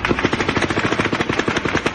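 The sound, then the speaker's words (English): A burst of automatic gunfire recorded on video: rapid, evenly spaced shots in a loud continuous string that runs through the whole clip with no talk. “for the first time, we hear what may be the shots that ended his life. We received another video that films that 12th burst of fire,”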